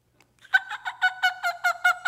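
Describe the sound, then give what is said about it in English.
A human voice imitating a turkey call, with a rapid run of about nine throaty, gobbling pulses in an even rhythm. The pulses are loud and come alone, with no other sounds. “let me at least make some similar sound to a turkey first, and then we will somewhere get close to the eagle. A turkey call would sound something like,”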